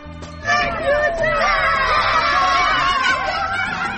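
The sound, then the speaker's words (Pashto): Children's voices shouting and laughing as they play in the snow after a snowfall in Maidan Wardak province. Many high, overlapping cries and squeals form a lively, continuous babble. “دا د هغو ماشومانو غږ و چې په دې ولایت کې د واورې ورېدو وروسته په واوره کې لوبې کولې.”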